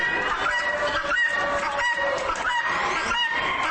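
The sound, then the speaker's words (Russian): A hen clucks in a steady, unbroken stream of short, throaty calls, loud and continuous with no talk over it. “Вот, например, курица, которая подает голос так.”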